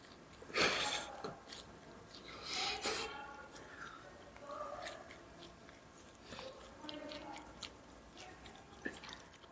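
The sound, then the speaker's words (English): Someone chews cold naan bread in soft, close munching bites. The chewing comes in a few uneven bursts and is quiet overall. “My last ASMR is going to be eating cold naan.”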